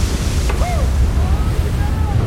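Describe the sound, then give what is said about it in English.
Big waves slam into a boat at night, a steady roaring wash of water and wind with faint whistling tones threaded through it. “She slams into big waves.”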